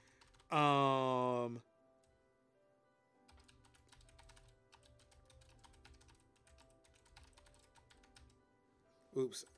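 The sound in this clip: Typing on a computer keyboard in Notepad: many quick, faint key clicks in an uneven stream after a brief voice, with the voice returning briefly at the end.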